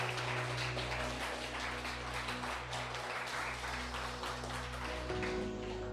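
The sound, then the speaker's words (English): A church audience claps together as a clap offering, making dense, continuous applause. The sound stays at an even level throughout. “Why don't we give the Lord the loudest clap offering that we can give?”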